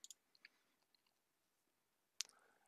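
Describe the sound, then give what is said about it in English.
A computer mouse clicks on a link. A few soft, faint ticks are followed by one sharper, brighter click near the end. “right here under creating business policies, go ahead and click that link.”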